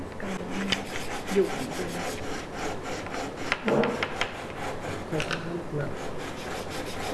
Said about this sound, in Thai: ในขั้นตอนการขัดเนี่ยถ้าเรายืนน้ำหนักตัวเราจะทิ้งลงมาจะได้น้ำหนักแล้วก็จะเร็วกว่า